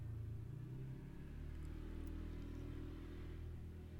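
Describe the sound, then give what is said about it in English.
Garbage trucks on trash day give off a faint, steady low engine rumble, with a slight swell of revving but no distinct beeps or clanks. “it's because of it being trash day, and there being trucks and noise all day”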